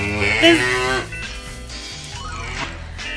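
A single cow gives a loud, drawn-out moo in the first second, its tone bending slightly in pitch, then trails off into a quieter, muffled low background.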